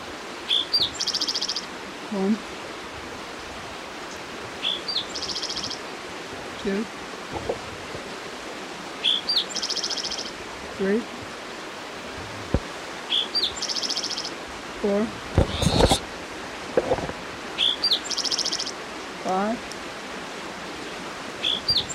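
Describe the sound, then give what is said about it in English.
Soft, continuous rush of creek water flowing, a steady low hiss under many short, high bird chirps that repeat at intervals. “Creek noise in the background.”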